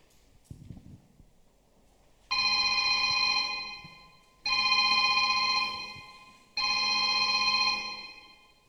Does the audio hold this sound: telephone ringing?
yes